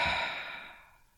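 One deep breath out during a guided breathing exercise, a soft airy sigh that starts fairly strong and fades away over about a second, heard alone.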